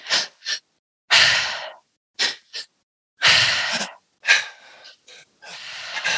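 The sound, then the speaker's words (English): Forceful rhythmic breathing in a belly inhale, chest inhale, long powerful exhale pattern: two short sharp intakes followed by a long, loud, airy exhale, repeated over several cycles with no talking. “it's actually a double inhale with a full elongated, powerful exhale. So it's an inhale through the belly, an inhale through the chest, and then a full exhale.”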